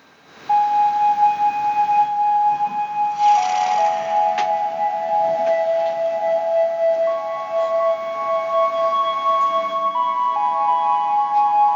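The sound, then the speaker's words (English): Trailer audio for the film Judge Dredd 3D: after a quiet lead-in, layered sustained electronic tones hold steady, with a brief hissing swell early on and notes that shift in steps. No one speaks. “Next, we're going to talk about Judge Dredd 3D, but first I'll play you the trailer.”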